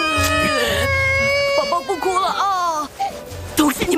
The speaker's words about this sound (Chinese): 把我孙子给弄哭了。